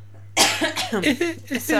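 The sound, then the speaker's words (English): A short run of rough coughs and throaty bursts from a person pausing mid-conversation, starting abruptly and breaking into several uneven pulses. “I need to cough, sorry, hold on.”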